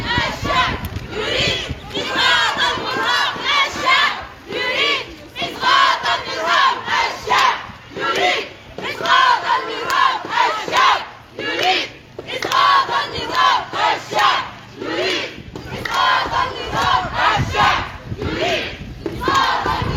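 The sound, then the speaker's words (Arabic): A protest march crowd chants slogans in loud, rhythmic bursts of massed shouting voices that rise and fall continuously for the whole stretch. “وردد المشاركون في الموكب هتافات”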